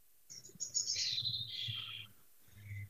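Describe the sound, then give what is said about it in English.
Birds singing outdoors on a summer day in Melbourne, with a continuous run of high, bright chirps and trills that rise and pause, heard over a steady low hum and without voices. “I'm so distracted by the birds singing in the background wherever you are. It's absolutely gorgeous.”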